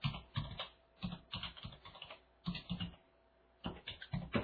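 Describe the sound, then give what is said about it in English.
Quiet typing of a web address on a computer keyboard, with quick bursts of keystroke clicks in several short runs separated by brief pauses. “I'll give you my, I'll type in my web address.”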